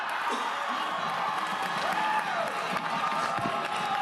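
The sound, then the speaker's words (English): Audience clapping mixed with crowd cheering and a few whoops, a dense, steady wash of claps at an even level throughout. “You can hear the audience's clapping tail off.”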